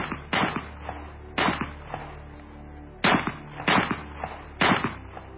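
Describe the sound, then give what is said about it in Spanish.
A pistol fired again and again until emptied, loud sharp cracks in an uneven series with short rumbling tails after each, and no voices. “Yusupov, preso de la ira, preso del pánico acaso, cogió la pistola de nuevo y descargó todo el contenido sobre el cuerpo de Rasputín.”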